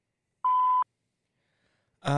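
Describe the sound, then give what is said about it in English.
A voicemail recording tone sounds once as a single steady, mid-pitched beep lasting under half a second. Silence follows, then a voice starts speaking. “Record your message after the tone.”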